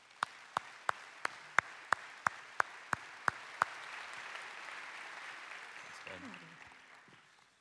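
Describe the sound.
An audience applauds as a man's wife is welcomed onto stage at a talk: eleven sharp, evenly spaced claps ring out over soft, steady crowd clapping that continues alone afterward, and a voice enters faintly near the end.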